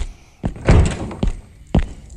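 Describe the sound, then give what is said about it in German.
A door to the steering-wheel room closing, heard as a few heavy, dull thuds and knocks with short pauses between them. “Die Tür zum Steuerrad.”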